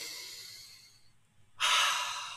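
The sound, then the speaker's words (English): Slow breathing in and out during meditation: a long airy breath fades away, then after a near-silent pause a louder breath of rushing air begins abruptly and continues to the end. “all I'm focused on is breathing in and then breathing out”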